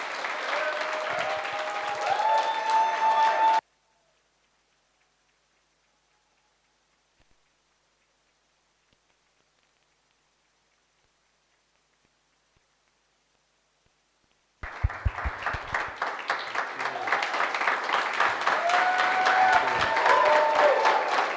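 A church audience applauds in two bursts of dense clapping separated by a long silence, with the second burst building louder as it goes on.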